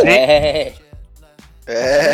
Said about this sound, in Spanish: Sácale una cabra en la grabación.